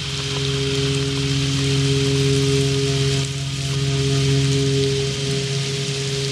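Heavy tropical rain pours onto a river in a dense, unbroken hiss that lasts the whole clip, over a constant low drone from a patrol boat's engine.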